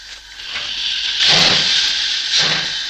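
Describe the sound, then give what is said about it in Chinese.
A steam locomotive pulls away with a continuous loud hiss of steam, broken by a couple of heavier chuffing bursts spaced about a second apart. “开车的是皮劳特，他镇定自若地把火车朝油库开去。”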